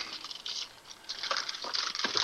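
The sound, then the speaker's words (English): Crinkling, rustling plastic from a Ziploc bag being handled, with irregular crackles that grow denser and louder toward the end. “Let me reach in here, and we've got a Ziploc bag over here.”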